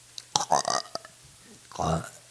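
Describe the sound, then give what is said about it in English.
A short, gravelly burp comes out as a couple of rough voiced bursts with a quiet, breathy gap between them. “Might be a burp.”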